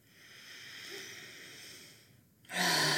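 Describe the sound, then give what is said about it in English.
A long, soft breath of air, taken as a deep breath during a guided self-regulation exercise, runs steadily and then gives way to a louder, abrupt rush of breath at the end, with no talking. “You're going to take a deep breath”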